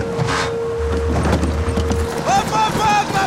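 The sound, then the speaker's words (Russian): Rapid clip-clop of hooves from a soldier's horse galloping after a car. The steady drumming runs through a busy, noisy background. “Солдат верхом на лошади нагоняет машину.”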